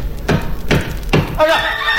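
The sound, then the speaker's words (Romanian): An axe chopping beech wood, three dull, evenly spaced thuds, each a short burst of impact noise, with a brief voice-like tone entering near the end. “Toporaș, hai taie, fagi în covoaie să se umple îndat cu vârf și îndesat sania cu surcele, lemne, bucățele.”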